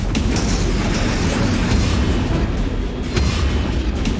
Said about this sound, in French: Six torpilles viennent d'être lancées en éventail à 3 secondes d'intervalle.